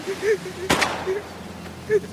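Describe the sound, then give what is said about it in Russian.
A gunshot in a film, one sharp, loud crack with a short rough tail, set between stretches of a voice speaking. “Одна из пуль попадает Шалому в руку.”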